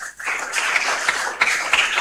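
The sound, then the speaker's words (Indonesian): Applause from a celebration audience for a priest and the sisters at a feast: a dense, steady patter of many hands clapping that continues throughout. “Tepuk tangan untuk Pastor Norbert dan suster OSF yang ada di belakang.”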